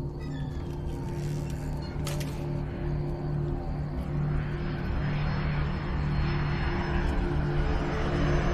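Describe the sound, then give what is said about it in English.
An airplane passes over an apartment building, a steady broad rumbling roar that swells slightly louder toward the end. “An airplane flies over the apartment building.”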